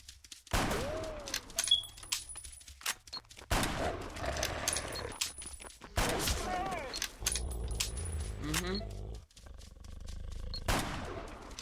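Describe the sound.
Gunfire in a zombie shooter video game, several loud bursts of rapid shots separated by short pauses, with players talking and exclaiming between them.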